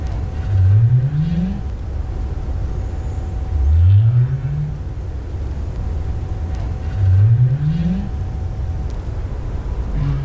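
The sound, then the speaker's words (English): North Atlantic right whale calls: three low upsweeping moans, each rising in pitch over about a second and evenly spaced, over a steady low rumbling background. “What is that? That, it turns out, is a very rare sound. It is the call of the North Atlantic right whale.”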